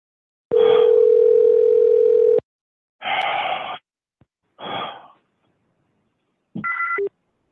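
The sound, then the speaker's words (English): Phone-line tones as a 2400 baud modem connects over a telephone line: a loud, steady dial tone lasting about two seconds, then three short, noisy bursts separated by silence, the last ending in a brief high two-tone beep. “2400 baud modem.”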